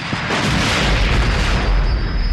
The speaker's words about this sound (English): The plasma charge detonated, superheating the ball bearings and firing them toward the target.